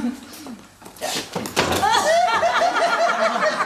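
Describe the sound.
A door opens for an arriving visitor, with a short thunk and rattle midway through, followed by people talking.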